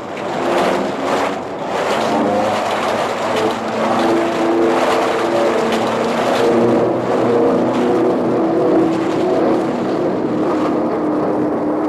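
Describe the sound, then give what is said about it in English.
A bomber carrying a 4,000-pound bomb dives to shake off ice. A loud, steady engine roar with a droning tonal hum rumbles continuously, with the tone wavering slightly as it goes. “Captain to crew, we're going down, boys. See if we can shake off some of this damned ice. Hang on to your hats.”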